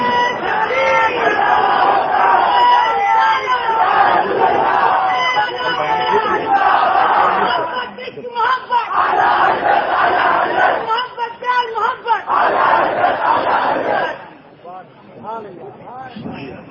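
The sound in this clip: A crowd chants a slogan at a religious gathering. Many voices roar together in several loud rhythmic bursts, then drop away to quieter voices near the end.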